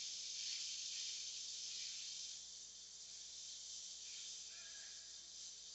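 Steam hisses in a continuous broad, high rush that runs the whole time. It is loudest at first and eases slightly after about two seconds.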